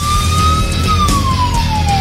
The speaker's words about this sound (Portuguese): Dona Tita, esposa dele, que se acorda já com essa sirene aí todo dia, ó.